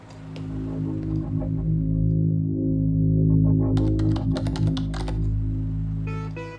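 Typing on a house computer keyboard comes through as quick bursts of clicking keys over a steady low electronic hum, ending with a short run of bright electronic tones.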